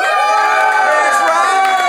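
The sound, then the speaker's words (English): Audience at a live comedy show cheering for a pair of contestants: a dense, loud wash of shouting voices throughout, with a man speaking briefly over it. “So let's hear cheering for Fanshawe and Izzy.”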